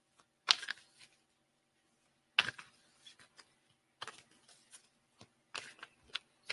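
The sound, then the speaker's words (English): Oracle cards are shuffled and drawn from a deck: soft, papery flicks and snaps come in several short bursts separated by stretches of near silence, faint and without talk. “And I will also draw us a spirit animal card. So let's do that.”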